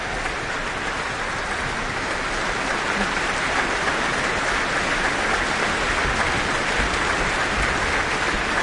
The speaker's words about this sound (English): The Auckland Philharmonia joining in with the audience to acknowledge their performance tonight.